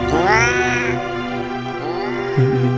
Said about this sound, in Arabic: وتحت رجله كان في قطة عمالة تتمسح في رجله، لكنها مش قطة طبيعية، قطة زي ما تكون مسلوخة أو شعرها كله متشال.